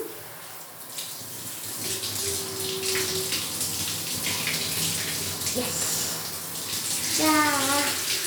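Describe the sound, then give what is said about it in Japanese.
Hot bath water pours over a body in a bathtub: a steady, full splashing stream that runs throughout, with a short vocal sound near the end. “体にお湯かけてくね。”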